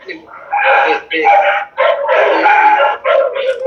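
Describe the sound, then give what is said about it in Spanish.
A dog barks and yips into an open microphone during an online meeting. The repeated bursts mix with people talking. “Los perros también. El perro ladrando que habla mucho. Pueden apagar los perros también. El micrófono que está el perro hay que apagarlo.”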